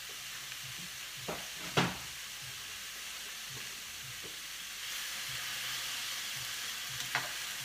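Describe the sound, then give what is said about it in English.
Salmon frying in a pan, giving a steady, moderate sizzle with a few sharper pops and crackles scattered through it. “I'll tell you that we will see how the pink of the salmon is going to go white, and that's what we're looking for. And that's when it's cooked. Okay, so that's cooking away.”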